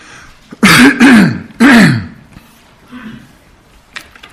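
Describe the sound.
Someone with a hoarse voice clears their throat in three loud, rasping bursts in quick succession, followed by a few faint, quieter sounds.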